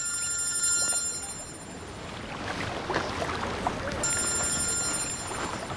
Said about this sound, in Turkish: Telefonun çalıyor. İşten olabilir.